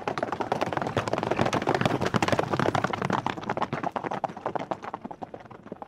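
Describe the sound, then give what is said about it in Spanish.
Hooves of horses ridden by nomadic hordes from the northern plains clatter in many fast, overlapping clip-clops, a dense, loud, steady galloping rhythm that thins slightly toward the end. “incluso antes de oír el ruido de sus caballos”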